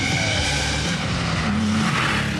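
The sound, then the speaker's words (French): A 3.2-litre car engine with a non-original aftermarket exhaust revving, a loud continuous low rumble with wavering pitch that rises and falls throughout. “Alors le moteur c'est quoi là? On est sur une base 3.2, un 3 litres. 3 litres 2, ouais. Et pour les détails, bah t'accélères et tu regardes si ça te plaît.”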